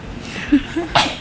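A single sneeze from someone suffering from tree-pollen allergy: one sharp, loud burst of breathy noise near the end, after a few faint sounds before it.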